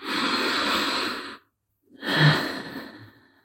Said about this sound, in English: Deep breath.